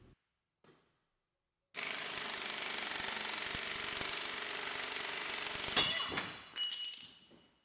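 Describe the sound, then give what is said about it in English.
Harsh, rapid hammering of a Thor impact gun on a bolt mounted on a dyno. It is a dense, loud rattle sustained for several seconds and ends in a sharp crack with metallic clatter as the bolt snaps. “So let's see if it likes the Thor gun for 10 seconds now.”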